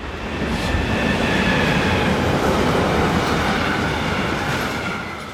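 A train passes on the railway line through the Rhine valley at Bacharach. A loud, steady roar of wheels on rails swells in, holds, then eases slightly over about five seconds, with faint thin whining tones above it.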